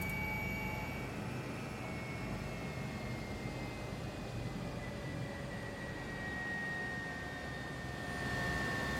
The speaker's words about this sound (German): Ihr hört, die Turbine läuft schon wieder hoch.